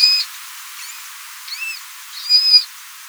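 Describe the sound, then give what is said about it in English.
High-pitched chirps from a manatee, a 1,000-pound sea mammal, come as a few short, bird-like calls spaced apart, faint squeaks between louder bursts with no voices. “Yes, that's the sound of a manatee chomping away on some leafy greens. And they also make these surprisingly high-pitched chirps.”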